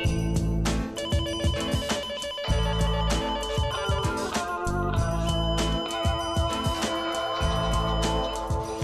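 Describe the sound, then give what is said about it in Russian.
A doorbell rings at the front door of a home, a bright electronic ringing tone that repeats in many short bursts, loud and steady for the whole span, with no voices. “звонит в дверь”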